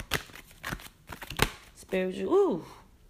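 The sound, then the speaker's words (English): Wisdom cards being shuffled and drawn, with several quick, crisp papery flutters over the first second and a half, followed by a person talking with a rising and falling voice. “Let's get one more wisdom card.”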